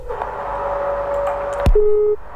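A phone call being cut off on a call-in line: a steady telephone tone holds, then a sharp click and a brief lower beep end it.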